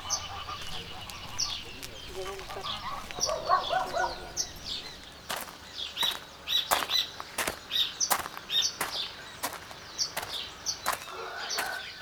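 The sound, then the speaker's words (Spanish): Birds at nearby roosting sites by a lagoon give many short, high chirps scattered over a busy background, broken by sharp knocking clicks. “sobre todo en esta zona, algunos de los lugares que son los dormideros de las aves, que están aquí cerca, que son sonidos característicos”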